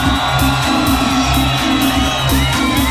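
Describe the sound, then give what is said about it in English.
A club crowd at Privilege Ibiza cheers, whoops and shouts in a loud, sustained roar that stays dense and unbroken from start to finish. “Let's see if we can hear from our audience down on the floor. Let me hear you make some noise!”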